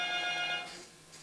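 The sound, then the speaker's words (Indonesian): A telephone rings with one electronic burst of steady, stacked harmonic tones that fades out after about half a second, leaving faint hiss. “Ada yang dari telepon WA, kuangkat mi dulu. Telepon biasa maksud saya.”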